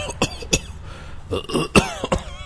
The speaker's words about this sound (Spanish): Y algo ya me dio tos. De verdad.